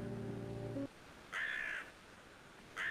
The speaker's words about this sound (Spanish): Y te acompaña el graznido de un cuervo.